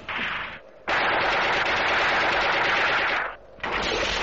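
Rapid automatic gunfire, as many men shoot at one man, rattles in loud sustained bursts: a short volley, a long unbroken stretch of firing, then another burst after a brief gap.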